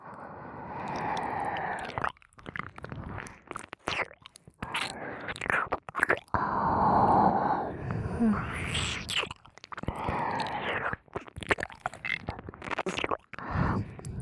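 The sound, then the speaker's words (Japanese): Wet ear-licking mouth sounds in an ASMR setting: soft, close smacks, slurps and tongue clicks come in irregular bursts with short pauses, mostly quiet, with breathy whisper-like noise between them. “いかがでございます？私の耳なめは。”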